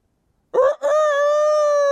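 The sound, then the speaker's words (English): A rooster crows once, a loud, strongly harmonic call that breaks briefly after its opening and then holds a long, steady note to the end. “before a rooster crows three times, you're going to deny that you know me”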